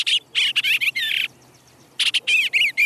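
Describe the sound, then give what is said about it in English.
A bluebird gives a rough, harsh chatter to warn off a tree swallow diving at its nest box. Loud, raspy bursts come in quick clusters, pause briefly, then resume. “With a rough chatter and raised wings, the bluebird warns the swallow away.”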